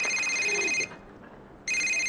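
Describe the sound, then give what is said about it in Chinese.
An incoming call sets a telephone ringing with a bright electronic trill. Two ring bursts are separated by a short pause, and the second is cut off; the ringing is fairly faint and no voices are heard. “哟，我岳父打电话来了，赶紧跟他老人家解释一下。”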